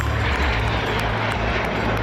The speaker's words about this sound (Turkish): Uçakların duman atarak tırmanış, dönüş ve alçalma hareketlerini yapması izleyenleri hayran bıraktı.